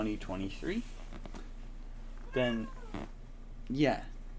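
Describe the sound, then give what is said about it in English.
A cat meows a few times: drawn-out, wavering cries in separate bursts with gaps of quiet between them. “Shut up, cat.”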